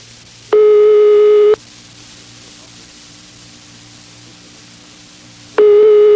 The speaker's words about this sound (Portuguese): Ele tá chamando, tá chamando.